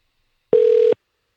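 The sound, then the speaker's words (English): A telephone tone as a call is dialed: a single steady, mid-pitched beep lasting under half a second, alone in silence. “I'm dialing the next one.”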